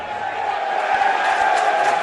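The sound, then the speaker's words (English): A football stadium crowd cheers in a steady, loud, continuous roar of massed voices with no distinct peaks. “I'm not being derogatory, but they're cheering at anything, aren't they?”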